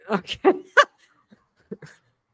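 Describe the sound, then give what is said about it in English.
A pet dog gives a few short, whimpering yips in quick succession, then goes quiet apart from a couple of faint soft sounds. “That's my dog.”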